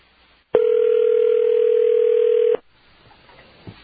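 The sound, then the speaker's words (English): A telephone dial tone sounds alone as one steady, loud, unbroken tone for about two seconds, then cuts off abruptly. No keypad beeps are evident, and only faint background noise follows. “You have dialed enough. Okay, apparently it doesn't work.”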